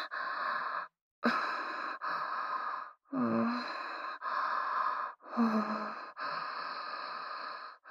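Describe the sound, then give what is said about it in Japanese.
Hot, breathy exhales from someone up close: a run of repeated airy sighs with short pauses between, fairly loud and steady, a couple carrying a faint voiced edge. “もう、キスの距離ですよ。熱い吐息がいやらしくかかって、”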